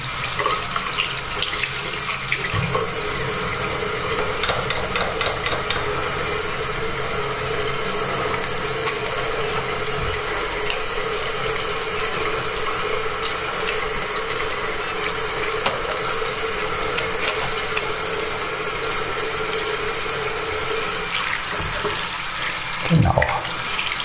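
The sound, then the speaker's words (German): Water runs from a tap while hands are washed, a steady, continuous rushing hiss that holds for the whole stretch, with a brief thump near the end. “Ja, jetzt nochmal Hände waschen natürlich.”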